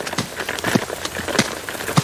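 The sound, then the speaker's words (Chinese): Heavy rain falls in a dense, even patter, with a few sharper drop strikes standing out from the steady wash. “这雨好像越下越大了，虫奶奶，你来俺们的石洞里避雨吧。”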